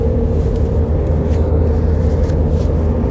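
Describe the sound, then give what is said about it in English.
A car driving, heard from inside the cabin: a steady low rumble of engine and road noise that stays constant and loud throughout, with no voices. “We're driving to a camp right now.”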